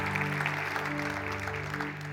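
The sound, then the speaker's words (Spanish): A church audience applauds in praise of the Lord: a soft wash of clapping runs through the short clip over a sustained low held tone, easing slightly at the end. “sí, vamos a darle un aplauso al Señor.”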